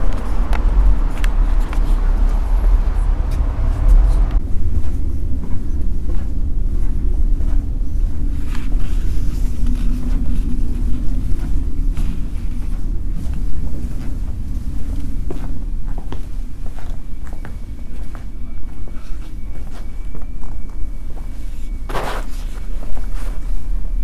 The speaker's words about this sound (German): Da ist halt das Windrauschen war einfach zu stark. Okay, das war es jetzt aber erstmal. Ich schneide gleich den Rest dahinter. Live-Eindrücke Live von, von der Fähre.